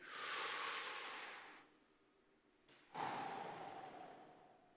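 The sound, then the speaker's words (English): Faint breathing of a group taking a deep breath together: a soft, airy inhale that fades, a brief quiet pause, then a longer breathy exhale that tapers off. “On the count of three, I want everybody to take a deep breath in and then a deep breath out.”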